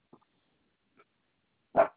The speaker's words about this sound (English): Stop barking.